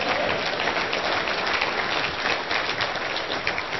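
Audience applause at a meeting of Utah associates and guests: steady, dense clapping that stays fairly faint throughout.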